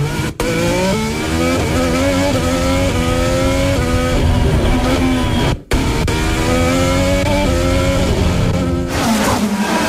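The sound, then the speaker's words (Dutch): A Formula 1 car's engine, recorded onboard at the 2023 Monaco Grand Prix while turning into the Nouvelle Chicane, screams loudly at high revs, its pitch stepping repeatedly as gears change, with one brief cut midway. “Dit zijn de onboordgeluiden van Lance Stroll. Insturen van de Nouvelle Chicane.”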